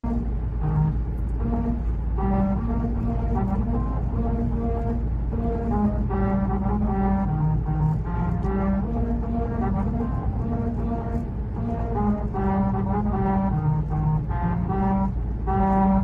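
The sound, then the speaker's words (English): Car tyres rolling over grooved musical rumble strips on a road in Hungary, sounding out a steady melody of deep, tuba-like honking tones over a constant low road rumble. “What is that sound? That is the sound of a road playing music, or more specifically, it's the rumble strips on a road. That one's in Hungary, but it's a really clever piece of design because you know a rumble strip when you drive over it.”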